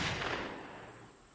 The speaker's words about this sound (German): In diesem Augenblick schoss ich.